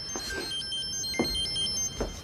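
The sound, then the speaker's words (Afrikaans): A telephone rings late in the evening at home, giving a few short, faint ring bursts over a steady background hiss. “Wie die hel bel die tyd van die aand?”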